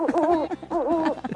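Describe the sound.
Pigeon cooing sound effect, two throaty, warbling coos in quick succession with a rounded, bubbling tone at moderate loudness.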